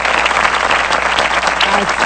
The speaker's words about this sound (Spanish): Así van a ser los aplausos igualitos para nuestra selección mexicana el día de mañana.